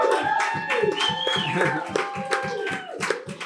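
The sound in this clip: Applause from a bar audience welcoming the bar's host: many quick, steady hand claps run throughout, with voices and a sustained tone carrying over the clapping.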